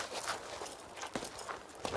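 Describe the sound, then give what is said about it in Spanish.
Soft footsteps of a woman walking off carrying a clay amphora: a few irregular, muffled steps, quiet and dull. “Recoge su ánfora y se marcha.”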